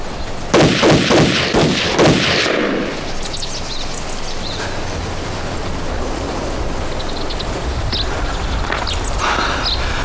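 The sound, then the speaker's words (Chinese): Gunfire in a tense armed standoff: a rapid string of several loud, sharp shots packed into about two seconds, followed by a long, quieter decaying tail with faint scattered sounds. “开枪！”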